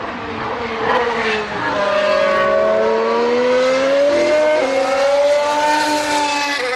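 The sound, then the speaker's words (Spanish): Mercedes racing car engine screaming at high revs, a loud, continuous, sharp whine with strong harmonics. The pitch dips briefly early on, then climbs gradually and holds steady to the end, with no voices. “El boom, boom, boom ha sido muy alemán. Este el Mercedes no es. Este es Alonso. Este es el Mercedes.”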